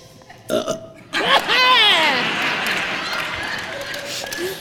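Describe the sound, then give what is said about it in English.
A toy doll, squeezed, lets out a short cough and then a long, loud, wavering belch that slowly trails off. “If you give her a playful squeeze, she will cough and belch.”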